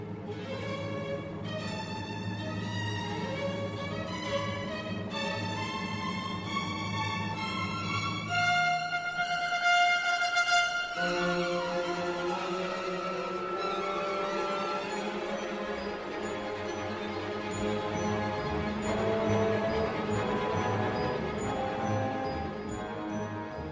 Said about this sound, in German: Was ihr da jetzt gehört habt, das war ein Ausschnitt aus dem Konzert des Radiosymphonieorchesters Wien.